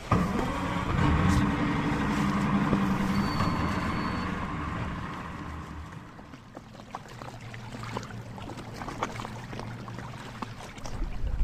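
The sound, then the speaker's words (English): A boat engine rumbles over rushing water on a ride out to the Isle of May, a rocky island. The rumble is steady for about six seconds, then drops quieter, with scattered sharp splashes and bursts. “So we have our experienced boatman James to do all the difficult bits, and we're just going to sit back and enjoy the ride.”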